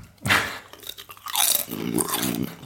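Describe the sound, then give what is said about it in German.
Potato chips crunch as someone eats them: one sharp crunching bite, then a longer stretch of dense, loud chewing crunches, with no talking. “Während du ein bisschen erzählst, esse ich mal hier zum ersten Mal in dieser Folge Chips.”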